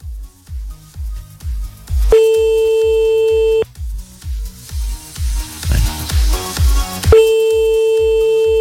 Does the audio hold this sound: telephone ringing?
yes

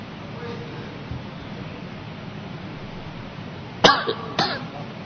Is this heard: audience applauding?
no

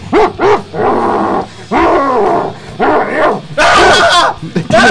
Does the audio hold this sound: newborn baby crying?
no

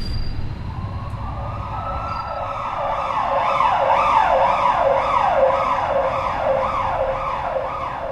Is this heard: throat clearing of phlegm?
no

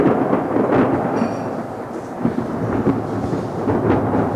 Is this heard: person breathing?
no

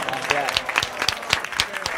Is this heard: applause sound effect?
yes

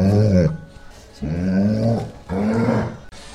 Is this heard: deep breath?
no

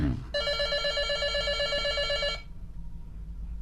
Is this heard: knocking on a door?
no

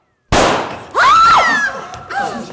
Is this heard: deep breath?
no

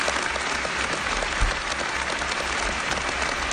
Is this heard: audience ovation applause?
yes

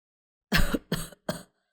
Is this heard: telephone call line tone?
no

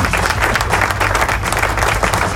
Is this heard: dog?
no

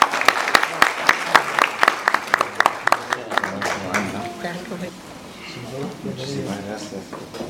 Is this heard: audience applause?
yes

